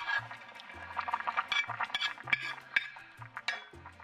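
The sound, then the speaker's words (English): Gentle liquid splashes and light clinks of a utensil against a pan as tofu is eased into simmering liquid over medium-low heat. Irregular soft bursts of sound continue throughout at a moderate level. “And now I'm going to add my tofu. Very gently.”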